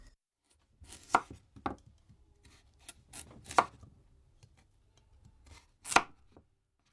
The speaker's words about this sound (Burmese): မွန်လာဥနီနဲ့အာလူတွေကိုအခွန်ခွာပြီးတော့2စင်တီမီတာအထူးအကွင်းလိုက်လီးပါမယ